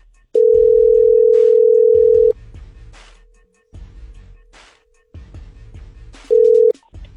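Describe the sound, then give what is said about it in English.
A loud, steady telephone dial tone sounds for about two seconds as a number is about to be dialed. It then drops to a faint continuous hum beneath low rumbling sounds and swells loudly again briefly near the end. “Sure, dial this number right. And see if she will tell us what's up.”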